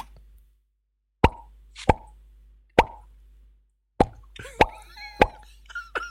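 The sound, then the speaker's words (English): Seven hollow, resonant pops from a finger flicked out of the mouth, each short and loud against near silence, coming in an uneven rhythm. “When you put your finger in your mouth and you flick it out, you have to blow.”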